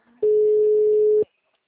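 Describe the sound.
A telephone call being dialed: one flat, steady mid-pitched tone lasts about a second and stops abruptly, standing alone against near silence.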